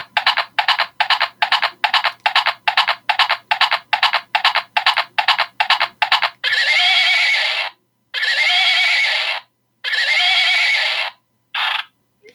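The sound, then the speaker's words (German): Pink toy hobby-horse unicorn neighing electronically when its ear is pressed: a fast string of short, bright, whinnying pulses, followed by a few longer sustained neigh bursts separated by silence. “Und zwar ist es ein Steckeneinhorn in rosa. Es besteht in erster Linie aus so einem Stock und so einem Einhornkopf. Und es hat eine ganz tolle Funktion. Wenn man das Ohr drückt, dann macht es Geräusche.”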